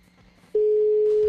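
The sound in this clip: Telephone ringback tone on an outgoing call: a loud, steady single-pitched tone starts about midway and holds unbroken to the end, after a stretch of faint background noise.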